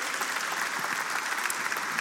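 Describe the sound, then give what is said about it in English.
An audience in Hackney, East London, applauds to welcome a speaker on stage, a steady, dense wash of many hands clapping that holds at an even loudness throughout. “Would you put your hands together and welcome Paul Cowley?”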